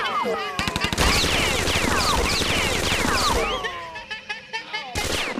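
Video-game gunfire breaks out in a short rapid burst of shots, then runs into a dense, continuous clatter of automatic fire with other game effects, easing off before a final brief burst at the end.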